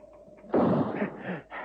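A single rifle shot fired from a parapet at a target seated in a chair. It starts with a sharp, loud crack, then a rumbling decay and a few weaker echoing bursts trailing after.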